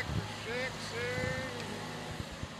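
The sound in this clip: An old tractor engine runs with a loud, steady, continuous rumble and low droning throb that holds constant for the whole stretch, with no pauses.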